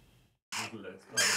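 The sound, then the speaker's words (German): Raspy, harsh begging calls of hungry jackdaw chicks, coming in two loud bursts after a moment of silence, the second burst the loudest. “Die Dohlenkinder machen ganz schön Rabatz. Sie haben Hunger, jede Menge Hunger.”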